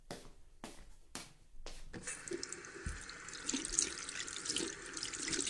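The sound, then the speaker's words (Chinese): Tap water runs steadily into a sink as someone washes hands dirtied by dust from carrying cardboard boxes, after a few short bursts of noise. The flow is fairly quiet and continuous and carries on to the end. “把我手都弄脏了。我先去洗手了。”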